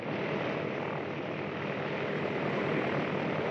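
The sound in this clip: Steady drone of a propeller airplane engine in flight as it comes in to land, a continuous, even, full roar with no breaks or voices.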